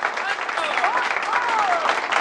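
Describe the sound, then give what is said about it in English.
Enthusiastic applause from an audience at a stage recital, a steady loud wash of many hands clapping furiously, with a voice speaking over it. “Diana and Jane clap furiously.”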